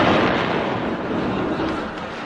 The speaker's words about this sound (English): another atom bomb!